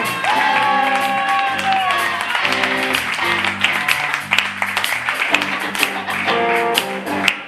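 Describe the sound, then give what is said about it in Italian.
An audience applauding as performers are introduced on stage, dense clapping and some cheering that swells in the middle, mixed with music playing throughout. “Un applauso per Emi Persiani.”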